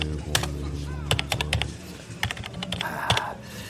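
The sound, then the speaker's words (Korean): Computer keyboard typing as an address is entered to send a message. Quick, irregular keystroke clicks come in uneven bursts with brief pauses between them. “자, 주소 치고 보내기만 누르면 되는겨.”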